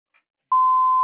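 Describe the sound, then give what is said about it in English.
A voicemail answering machine tone: one long, steady, loud beep that starts about halfway through and holds unchanged to the end, after a very faint brief blip. “Please leave one detailed message after the tone with the best phone contact number, and I will return your call within 24 to 48 hours.”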